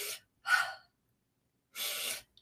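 Quick breaths taken as a reset during a guided relaxation practice: a few short, airy bursts, with a longer pause before the last one and no talk.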